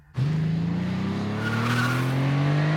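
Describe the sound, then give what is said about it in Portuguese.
Car driven in a dubbed animated cartoon: an engine bursts in abruptly and revs loudly with steadily rising pitch, with a tire squeal over it. “O quê? Eu tô dirigindo.”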